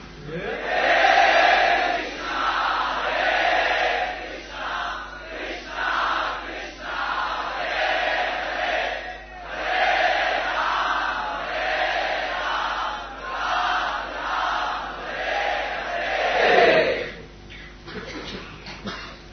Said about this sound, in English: loudly share our hearts while chanting the Maha Mantra.